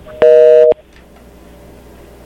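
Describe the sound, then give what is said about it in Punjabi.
Telephone busy tone after a caller's line dropped on a call-in line: one loud, buzzy half-second tone, then near-quiet with a faint, brief beep at the end. “ਮੇਰੇ ਖਿਆਲ ਚ line Pal ji ਦੀ drop ਹੋ ਗਈ ਆ।”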